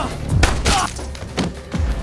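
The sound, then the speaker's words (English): Gunshots ring out in a film shootout, several sharp, heavy bursts with a thudding low end, spaced irregularly with short gaps between them. “He sneaks up behind the guy and shoots him in the back.”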